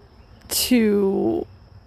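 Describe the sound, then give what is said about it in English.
A pet cat meowing once, a single drawn-out, fairly loud tonal cry lasting about a second against a faint, quiet background. “so you just have to bear with my kitty right now”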